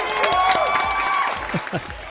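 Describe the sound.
Audience applause and cheering greet a guest DJ being introduced, a steady wash of clapping from the crowd with voices sounding over it.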